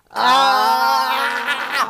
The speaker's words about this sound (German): Wir müssen jetzt gleichzeitig mal A schreien